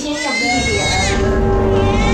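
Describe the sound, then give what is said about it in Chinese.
A newborn baby boy, the second of twins, cries just after birth. The cry is a steady, wavering, bleat-like wail that is high-pitched and fairly loud and lasts throughout. “二宝出来了，出来就哭了啊”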